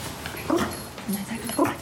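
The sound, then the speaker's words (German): A small white miniature poodle whimpers restlessly, giving a few soft, faint whines spaced through a low background hiss. “Vincenzos Hund Dante, ein kleiner weißer Zwergpudel, wird langsam unruhig.”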